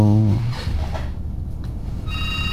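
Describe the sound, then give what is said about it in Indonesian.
A telephone rings with a steady electronic tone of evenly spaced bright pitches, most distinct toward the end, over a continuous low background murmur. “kalau ada telepon kita berhenti dulu. Halo, selamat malam.”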